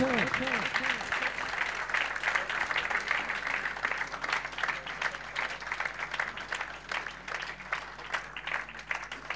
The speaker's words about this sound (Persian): شما دست بزن، همجور دست بزن، قشنگ دست بزنید برای سید و شهدا